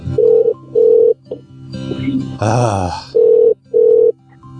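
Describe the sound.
A telephone rings in two double rings, steady tonal bursts in pairs, with a voice groaning in the pause between them.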